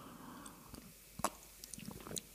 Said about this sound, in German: Darauf gönne ich mir hier erstmal einen Schluck Pfefferminztee.